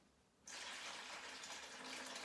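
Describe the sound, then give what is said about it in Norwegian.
Water poured from a jug into a basin, a steady, faint rushing splash that begins abruptly after a brief quiet moment and continues evenly to the end. “Han tok en krukke med vann, og så helte han i et fat.”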